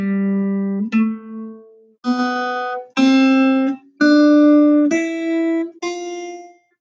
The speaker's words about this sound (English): let me play you what the G major scale sounds like if you were to have F instead of F sharp.